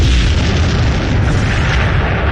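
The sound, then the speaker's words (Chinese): An explosive pack blasts apart a bunker with a loud, dense, roaring boom. The rumble stays heavy and steady for the whole stretch, with no talk over it. “随着一声巨响，炸药包摧毁了碉堡，敌人的机枪也停止了扫射。”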